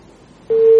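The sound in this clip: A phone line tone sounds as a call is cut off: faint line hiss, then one steady, unbroken beep that continues to the end.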